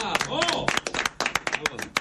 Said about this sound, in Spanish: Ah, en este caso entonces, lo recibimos con... Le damos un aplauso a Mariano Luna.